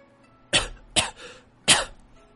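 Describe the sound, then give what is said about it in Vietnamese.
A woman coughs hard and dry after nearly being choked. Three harsh, abrupt coughs come close together, with short gaps between them, and there is no speech. “Sở Linh Nhi ngã ngồi qua một bên thống khổ, bụng cổ ho khan không ngừng”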